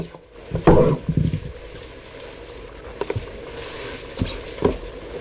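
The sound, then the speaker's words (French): Rabbit stew (civet de lapin) cooking in a village kitchen, recorded in 1960: a soft bubbling sizzle with a few louder clattering bursts, faint and low throughout. “On y entend, comme une douce mélodie, un civet de lapin cuire en arrière-plan.”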